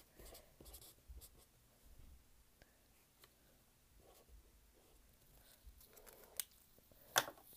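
Handwriting with a pen on paper while noting a book on a reading list: faint, soft scratchy strokes in short irregular bursts, with a couple of sharper clicks near the end.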